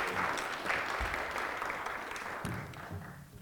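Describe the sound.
Steady applause from an audience at MIT welcoming a guest speaker, a dense, even wash of many hands clapping that holds at a constant level for the whole stretch, with no voices on top.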